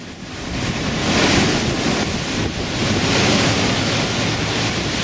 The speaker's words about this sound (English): here's the sound of the water flooding in the streets of Lower Manhattan at the height of Hurricane Sandy.